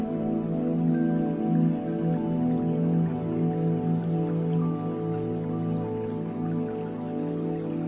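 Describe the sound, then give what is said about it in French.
Spring water trickles in a soft, steady, continuous wash with faint dripping texture throughout, alone without voices. “Vous percevez un ruissellement. Allez à la rencontre de cette source d'eau.”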